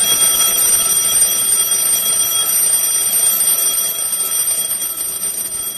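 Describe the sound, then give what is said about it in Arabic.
An alarm clock bell rings loudly and continuously, a dense, shrill metallic clatter that holds steady throughout and eases only slightly near the end, with no voices. “وبدأت أسمع صوت جرس المنبه”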